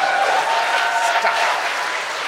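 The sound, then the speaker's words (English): Applause rises from an audience at a live talk show: a full, even rush of clapping that holds at a steady level for a couple of seconds, without voices. “Thanks for the applause, everybody.”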